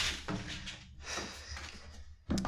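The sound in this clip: A cardboard shipping box being opened: quiet scraping and rustling of cardboard, then a sharper knock at the end.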